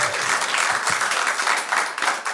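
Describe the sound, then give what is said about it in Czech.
Studio audience applauding during a talk show, a thick, continuous patter of many hands clapping that swells and dips slightly in loudness, with no speech over it. “Možná jim taky chutnal potlesk, zatleskáme jim tam nahoru.”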